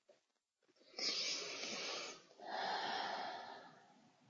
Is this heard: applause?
no